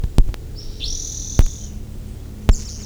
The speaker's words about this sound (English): several rufous-sided towhees, one of them making a strange sound.